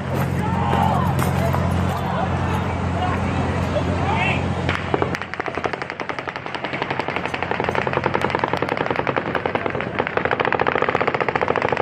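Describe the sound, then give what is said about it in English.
Hundreds of rifle rounds fired from a 32nd-floor suite of the Mandalay Bay Hotel: after a stretch of noisy crowd sound with voices, long rapid bursts of sharp shots crackle on steadily to the end. “A 64-year-old guy from Mesquite, Nevada, fired hundreds of rifle rounds from his suite on the 32nd floor of the nearby Mandalay Bay Hotel. Sounded something like this.”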